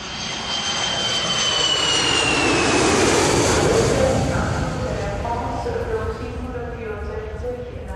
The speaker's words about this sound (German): Der Düsseldorfer Flughafen. Wer hier landet, kommt automatisch an den Schaltern der Autovermieter vorbei.